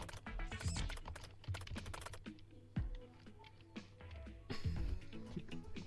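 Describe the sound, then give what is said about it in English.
Rapid typing on a computer keyboard during an online game session: many sharp clicks in an irregular, uneven rhythm with some louder taps, heard alone without talk. “all I have to do is type in one word”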